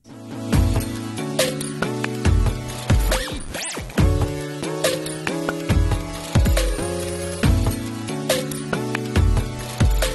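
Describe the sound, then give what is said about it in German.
A radio show jingle plays at the press of a button: loud, bouncy music with a steady rhythmic beat and a swooping effect midway through. “So ein toller Toller Jingle. Habe ich, hab ich jetzt gerade angemacht. Danke, dass irgendjemand anders den Knopf gedrückt hat.”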